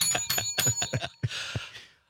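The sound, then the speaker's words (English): A small bell, like a bicycle bell, is rung rapidly in a rattling series of quick metallic strikes. The run ends in a longer, brighter ringing tone that fades out. “Give that a bell”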